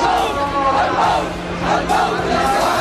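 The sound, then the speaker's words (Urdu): A crowd at a procession in support of Palestinians chants slogans together, loud and sustained, with the voices surging in rhythmic swells. “یہ نعرے فلسطین کے مظلوم عوام کے حامیوں کے بلند عزم اور بیدار ضمیر ہونے کی عکاسی کرتے ہیں۔”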